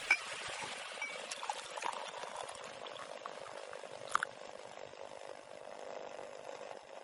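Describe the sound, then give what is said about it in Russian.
A girl pours milk into a cup in a steady, quiet stream that runs unbroken for several seconds. “Внучка наливает себе молоко.”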